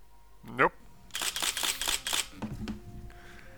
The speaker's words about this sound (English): We got paparazzi. And his camera.